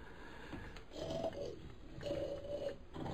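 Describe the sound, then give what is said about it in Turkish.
A man snoring in the next room at midnight: two drawn-out, low rasping snores, each lasting under a second, over a quiet background hiss. “Yan odada horlayarak uyuyan dostum”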